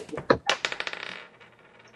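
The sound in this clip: Dice roll across a table during a tabletop game, a quick clatter of bright clicks that crowds together at first, then thins out and fades.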